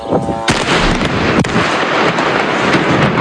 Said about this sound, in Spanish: Este sonido que escuchas es el bombardeo sobre Beirut de la aviación israelí el pasado domingo